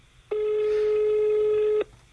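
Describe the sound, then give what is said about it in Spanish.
A telephone call ringing out as someone is dialed: a single long, steady electronic ring tone of about a second and a half, starting and stopping abruptly, with quiet background before and after. “Bueno, vamos a llamar a Josep. A ver si me coge el teléfono.”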